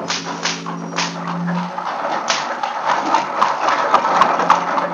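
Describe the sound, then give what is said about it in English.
Heavy horse-drawn cart wheels roll through a courtyard and down a rocky way while whips crack. Many sharp cracks and knocks cut through a steady rumbling rattle, and a low hum sounds briefly at the start. “In the courtyard and down the rocky way, the roll of heavy wheels, the crack of whips”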